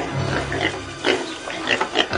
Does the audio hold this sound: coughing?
no

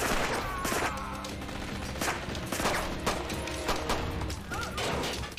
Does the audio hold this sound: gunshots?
yes

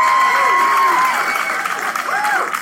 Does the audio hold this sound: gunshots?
no

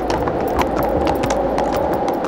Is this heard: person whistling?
no

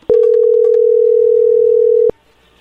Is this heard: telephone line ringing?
yes

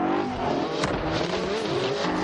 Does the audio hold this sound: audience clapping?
no

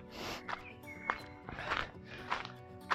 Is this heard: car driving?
no

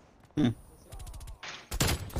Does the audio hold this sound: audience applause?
no

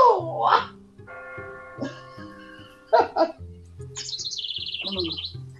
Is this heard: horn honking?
no

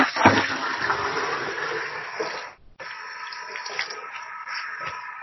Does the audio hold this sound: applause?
no

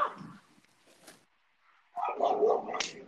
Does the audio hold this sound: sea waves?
no

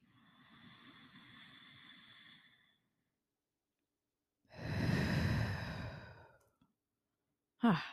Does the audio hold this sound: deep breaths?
yes

